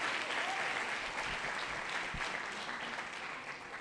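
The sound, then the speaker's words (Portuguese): An audience at a church service applauds, a dense, steady wash of clapping that holds for several seconds and slowly thins and fades toward the end. “Pode aplaudir o Pedro.”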